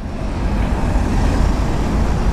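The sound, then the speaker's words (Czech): Cars creep slowly across a city bridge under repair, with traffic squeezed into one lane and short queues forming. A continuous low, dense road rumble holds steady throughout, loud and without speech. “Po hlávkově mostě pomalu projíždí auta z centra do Holešovic. Na příjezdu se tvoří krátké kolony.”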